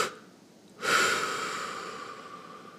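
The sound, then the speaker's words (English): Breathing exercise for easing anxiety: after a near-silent moment, a sudden, loud breathy rush of air begins and holds, fading slowly to the end. “All right, do one more time. Breathe all the way in. And then double push.”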